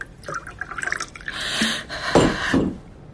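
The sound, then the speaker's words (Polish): Water pours into a glass with a splashing, trickling rush that builds and swells, then eases off, heard on its own without talk. “Naleję pani wody.”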